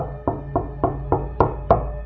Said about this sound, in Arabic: قعدت أفكر كتير لحد ما لقيت في صوت خبط من على باب الشقة. أيوة صوت خبط على باب الشقة.